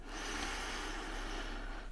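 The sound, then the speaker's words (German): A deep inhalation through the nose during a relaxing breathing exercise with lavender oil, heard as one long, steady, airy hiss that holds even and faint from start to end, alone. “Und noch ein letztes Mal. Tief einatmen.”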